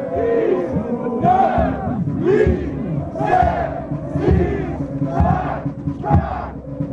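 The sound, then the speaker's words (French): A large crowd cheers and chants at a festive winter swim held in cold weather with costumes, loud rhythmic group shouts rising in repeated waves. “Et même si le thermomètre n'a pas dépassé les 5 degrés, le public est venu nombreux encourager les courageux. Radio 6 était sur place, écoutez.”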